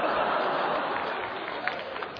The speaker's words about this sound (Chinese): 啊，我们已经有了新人了，应该呢，像那什么，二楼的掌声算你的。